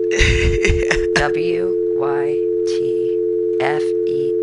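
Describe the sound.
A landline telephone's steady dial tone hums without a break while the phone fails to dial out, and a person talks over it.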